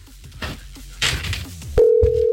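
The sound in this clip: A telephone dial tone sounds while a call is placed: a few soft handling knocks, then a steady, continuous tone that starts abruptly and holds to the end.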